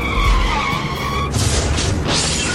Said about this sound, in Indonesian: Tuh kan sudah diperingati tadi, tetap saja menerobos. Akhirnya kan kecelakaan.